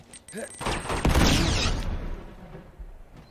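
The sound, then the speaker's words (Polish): A grenade explodes in a video game: a loud, rumbling blast that swells suddenly and then slowly fades away over a couple of seconds. “O, granat.”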